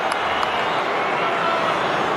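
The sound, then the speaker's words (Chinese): Stadium spectators applaud at a football match as a star player takes the ball. A steady wash of clapping and crowd noise runs throughout at an even level. “头号球星拿球，一定会有掌声的。 观众席上是掌声”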